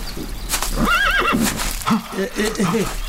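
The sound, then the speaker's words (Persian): A white horse gives a loud, wavering whinny whose pitch rises and falls several times, followed by lower, rougher sounds in the background. “خدای من، اون تبدیل به یه اسب سفید شد. آره درست شبیه اسب خودمون.”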